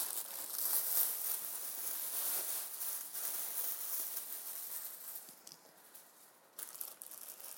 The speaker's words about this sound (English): Just get rid of this bag.